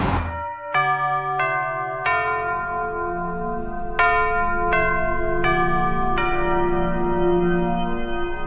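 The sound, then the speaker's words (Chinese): A bell chime marks eleven o'clock, ringing out as a bright melodic sequence of seven clear strikes in two groups. Each tone rings on and overlaps the next, with no voices. “钟声敲响到11点”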